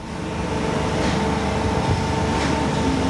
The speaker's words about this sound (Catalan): Sortim dels ferrocarrils i la banda sonora del Putxet és aquesta. I això que hi ha uns elements de protecció damunt de la maquinària que rebaixen el soroll en 63 decibels